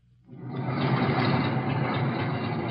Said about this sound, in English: This is the sound of a 4-engine transport plane bringing more of the wounded into Washington's bowling field.